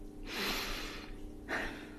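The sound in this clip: A deep breath, heard as two breathy rushes of air with no talk: a long, full one, then after a pause a shorter, quieter one.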